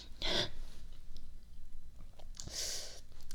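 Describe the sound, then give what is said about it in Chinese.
Someone chews sour mandarin oranges, making two bursts of wet, crunchy chewing separated by a quieter stretch of faint mouth noise and breathing. “就这么酸的橘子，你管这叫甜是吗？甜是吧？来，全给你，你今天全都给我吃了，”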